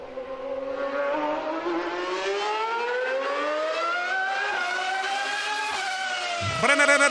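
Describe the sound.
Ferrari sports car engine revving: a loud, sustained harmonic engine note that climbs steadily in pitch. It dips sharply near the end, then rises again, with no talk over it.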